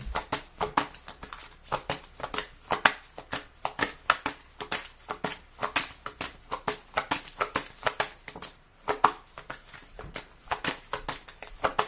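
Playing cards being shuffled, with many quick, crisp riffling bursts in an uneven, rapid rhythm and a short lull near the end before the riffling resumes.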